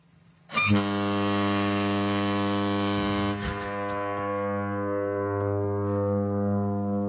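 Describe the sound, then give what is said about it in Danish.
A huge American train horn gives a loud, sustained, chord-like blast. It starts abruptly after a brief quiet moment and holds steady for about six seconds without a break. “hvis man stiller sådan et horn op her, som er et kæmpe, kæmpe stort amerikansk toghorn”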